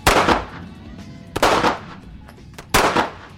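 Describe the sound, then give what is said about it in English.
Three loud gunshots are fired into a bag, each a sharp crack with a ringing decay, spaced more than a second apart. “All the shots went into center of mass of the bag. He destroys the bag, but that's it.”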